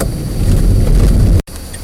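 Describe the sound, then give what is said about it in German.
A car driving over cobblestones: loud, continuous rumbling and rattling road noise that briefly drops out near the end before resuming more faintly. “Immer wenn ich über Kopfsteinpflaster fahre, wird die Qualität schlechter.”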